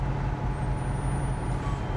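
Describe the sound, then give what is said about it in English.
Military trucks loaded with ammunition drive on roads east of the Gaza Strip, a steady, low engine rumble that stays even throughout with no talk over it. “Driving down roads east of the Gaza Strip, preparations for the next phase of Israel's military campaign are everywhere. Trucks loaded with ammunition,”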